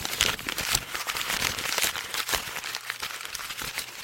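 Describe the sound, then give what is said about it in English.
A sheet of paper being crinkled up to imitate the crackling of lung rales, giving a dense, continuous, irregular crackle of crisp snaps at moderate loudness with no talking. “These sound like crackling or crinkling sounds, like when you crinkle up a piece of paper, for example. Crinkle it.”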